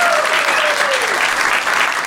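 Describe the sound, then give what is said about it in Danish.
Studio audience applause on a talk show as a wedding planner guest is welcomed, dense, even clapping that stays loud and steady for about two seconds. “Giv en kæmpe stor hånd til en bryllupsarrangør. Giv ham en kæmpe stor hånd.”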